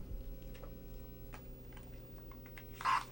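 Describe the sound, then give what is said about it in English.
A New York MetroCard is swiped once through a magnetic card reader, making a brief scratchy burst near the end. Before it there is a quiet stretch with faint scattered clicks. “Yeah, take my MetroCard. Rub that through there. I want to know what that sounds like. This is my MetroCard.”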